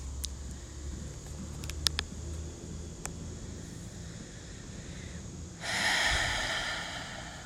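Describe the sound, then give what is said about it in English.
Deep breathing during a guided breathing exercise, soft and quiet, ending with a longer, louder open-mouth exhale that rushes out breathily; no talking is heard. “And an open mouth exhale, distributing that energy throughout your whole body. Take three more rounds of breath, just like that.”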